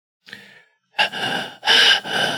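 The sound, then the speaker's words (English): A young boy of four breathing in quick, shallow, wheezy gasps: a faint first intake, then three louder breathy rasps in steady succession, with no talking. “Wheezing a little bit.”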